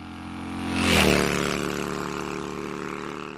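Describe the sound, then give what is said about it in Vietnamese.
A motorcycle engine roars fiercely in a narrow alley, swelling to a loud peak about a second in as it passes, then easing back to a steady droning hum. “Vừa lên xe, bỗng nghe tiếng xe máy rú lên dữ tợn, tiếng rú quen thuộc của con hẻm cây điệp.”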